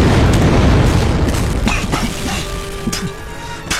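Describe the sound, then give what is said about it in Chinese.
Tank fire in a wartime drama scene: heavy, loud booming with a continuous deep rumble and a few sharper bursts cutting through. No voices are heard. “老哥，你听，是啊，是坦克车。”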